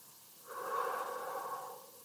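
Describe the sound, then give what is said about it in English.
A single soft, airy breath from a person doing a slow, guided grounding breathing exercise, swelling gently and fading over about a second, quiet and alone without speech. “Breathe in. Breathe out.”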